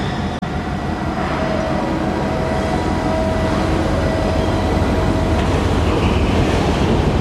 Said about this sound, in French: à Yantian, sur le terminal des conteneurs, au bout du bout du quai. Là où l'on est amarré.